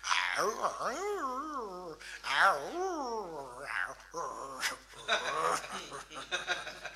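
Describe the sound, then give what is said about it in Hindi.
A voice imitates a house dog barking in the morning as part of a mimicry act, with wavering, rising and falling voiced yelps and howl-like calls in repeated bursts, fairly loud throughout. “ये मौलिक item mimicry का मैं प्रस्तुत कर रहा हूँ। सुनिए साहब, पहले सुबह का वक्त मेरे घर का कुत्ता”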